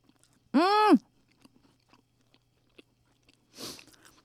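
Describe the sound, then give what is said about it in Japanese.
Biting and chewing a bakery curry bread with a mushroom-studded curry filling: faint, sparse crisp crunches and chews, with a short hummed vocal tone near the start and a soft breathy burst near the end. “カレーパンのイメージそのまんまなのがこのツオップさんのカレーパンではないかなということでいただきます”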